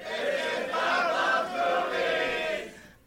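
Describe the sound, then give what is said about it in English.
An audience yells in unison at the start of a live comedy show, one loud, sustained shout of about three seconds that drops away at the end. “What is it that everybody's yelling at the beginning of Doug Loves Movies? It always sounds like this is Doug Loves Movies to me”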